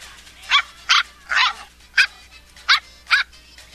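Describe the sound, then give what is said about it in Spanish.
A puppy barks in six short, high-pitched yips, fairly evenly spaced and each sharp and brief, standing alone over a faint low background hum. “Entonces llegó a la panadería presentando a su nueva mascota, Ticholo, su nuevo cachorrito de perro.”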